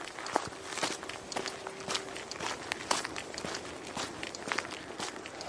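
Footsteps run through fresh snow on a route passing a raven colony, with many quick crunching steps in a steady rhythm and no talk.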